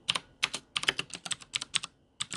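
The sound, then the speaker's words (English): Typing on a computer keyboard: many crisp key clicks fall in quick bursts separated by brief pauses, clear and fairly quiet with no talk. “I'm going to stop this here while I type.”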